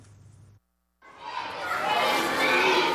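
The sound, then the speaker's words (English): Excited small schoolboys in uniform flood the corridors of a newly opened two-story primary school block in Khartoum, Sudan. After a short hush, a dense clamour of children's voices swells and stays loud to the end. “At a newly opened primary school in Sudan's capital, Khartoum, small excited boys in uniform are flooding through the corridors in a two-story block”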